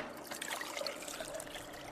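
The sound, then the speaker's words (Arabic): Water trickles and pours softly onto powder during document restoration work, a faint, continuous liquid gurgle with light splashy detail and no speech. “طاولن البودرة رقم 3. تفضل. زيد الماء شوي.”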